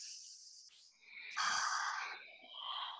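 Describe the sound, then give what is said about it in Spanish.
A deep breath, long and airy, swelling and easing in loudness over a few seconds, alone with no talk. “respira profundo, respiremos profundo”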